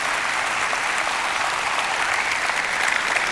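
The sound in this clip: Loud, sustained applause from an audience welcoming a guest speaker, with many hands clapping in an even, continuous roar throughout.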